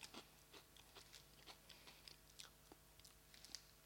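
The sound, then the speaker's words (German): Faint, repeated crunching and chewing of chickpea chips, many crisp bites in an uneven rhythm, heard alone without talk. “Ich bin ein Fan von Chips und die werde ich jetzt gleich mal testen hier.”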